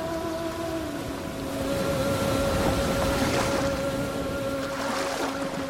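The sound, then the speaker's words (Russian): Sea waves wash in a steady, hissing rush that swells and recedes a few times, with a faint, continuous tonal hum underneath and no voices. “Шум моря говорит мне о вечности.”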